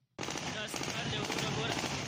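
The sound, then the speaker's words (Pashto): Taliban fighters fire celebratory automatic gunfire into the air at Kabul airport after the American withdrawal. The bursts start abruptly and run as a dense, continuous, loud crackle to the end. “طالب چنګلیو د کابل هوایي ډګر څخه د امریکایانو تر وټلو وروسته د خوخي هوایي ډزې وکړي”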